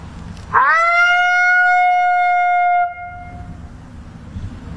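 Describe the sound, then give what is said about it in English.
A human voice imitates a female lonesome howl, softer and higher pitched. A single long, clear tone swoops up quickly at the start, holds steady for about two seconds, then cuts off and leaves quiet background. “I'll maybe go into just a lonesome howl. I can do maybe a female lonesome, so it's a little softer, a little higher pitch”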